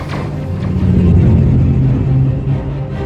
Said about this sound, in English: I'm going to straighten up and hit the throttle.